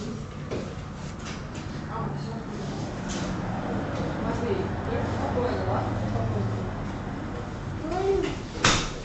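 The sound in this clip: A door being pulled open, heard as soft clatter and a sharper knock near the end, under ongoing voices and background noise.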